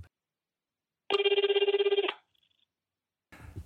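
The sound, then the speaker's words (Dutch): A telephone rings in a single burst of about one second, made of rapid, evenly pulsed bright tones. It is fairly loud and heard alone, followed by a faint brief blip and then a short rustle. “we worden gebeld”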